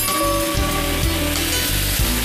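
Boiling water poured into a pot of ribs makes a steady, loud sizzling hiss with a low churning rumble underneath, continuous from start to finish with no talk.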